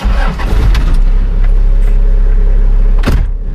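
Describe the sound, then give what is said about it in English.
A car drives around a wheat-belt farm in Western Australia, its engine giving a steady, loud low rumble with a few sharp knocks and rattles over it. “Driving around Stephen Bolt's Corrigan farm, there are signs of new life everywhere.”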